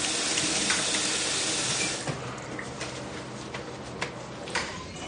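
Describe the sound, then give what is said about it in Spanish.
Water runs from a tap into a bathroom sink while someone rinses their face. A loud, steady hiss gives way to a softer flow broken by a few light splashes. “Abre un grifo y se refresca el rostro secándolo luego.”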